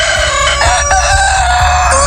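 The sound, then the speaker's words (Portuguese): An old rooster crows in a loud, sustained, strongly tonal call with rich harmonics. It holds steadily through the whole clip with slight wavering in pitch. “Cantou o galo velho”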